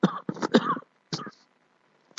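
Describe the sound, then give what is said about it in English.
A few short, rough coughs and throat-clearing bursts from a man who is giving a lecture. They come close together at first, then one more follows, with silence after. “Don't worry, I'm very well, just a little bit cough, alhamdulillah.”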